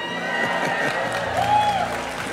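Applause from a church audience honouring a youth praise and worship ministry, a steady, dense wash of clapping that holds an even loudness throughout.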